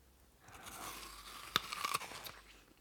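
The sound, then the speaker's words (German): Someone bites into a piece of fruit and eats it, making faint crisp crunches. One sharp bite stands out, followed by a few smaller chewing crunches, with no voices. “Also iss erst einmal von dem Obst. Greif zu.”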